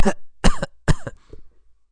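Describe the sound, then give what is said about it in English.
Three sharp, evenly spaced coughs from one person, loud and abrupt, followed by a weaker throaty rasp as the sound trails off. “No, he didn't sneeze. He coughed.”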